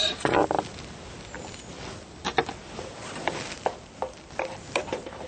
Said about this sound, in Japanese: でここにちょっと火を弱めて、 生ネギね入れていきます。